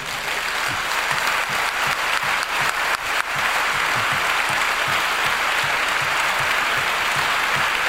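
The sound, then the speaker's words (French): Ovation from the audience filling a hall at a conference closing session: sustained, dense applause from many hands, loud and steady, with a few sharper individual claps standing out early on. “Et je voudrais bien que toute la salle vous fasse une ovation.”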